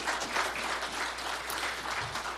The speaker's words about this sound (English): Yeah, you should clap for them.